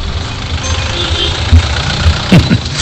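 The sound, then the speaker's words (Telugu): An auto-rickshaw engine idles with a steady, low chugging rumble, broken by a few louder knocks near the end. “ఇదిగో auto కూడా వచ్చింది”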